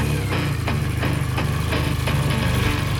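A motorcycle engine runs steadily, a low continuous rumble with a buzzy rattling edge and faint regular pulses, holding an even loudness throughout with no voices.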